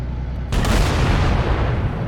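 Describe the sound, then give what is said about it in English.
Gunfire in a military shooter video game set in a canyon breaks in abruptly after a short quieter stretch, then continues as a loud, dense rumble of shots and booms to the end. “I'm over here killing guys still. I think I accidentally shot an entire squad of Marines dead.”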